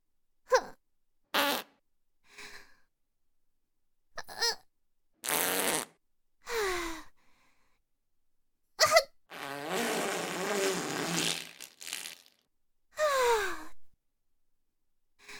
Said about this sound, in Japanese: 出る。またおなら出ちゃう。出る出る出る出る出る。